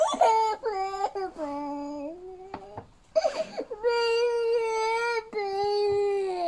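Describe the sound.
A child cries in a series of high, wailing bursts with short catches of breath between them. The crying is loud and tuneful throughout, and its pitch wavers in places. Context ties it to a Peppa toy.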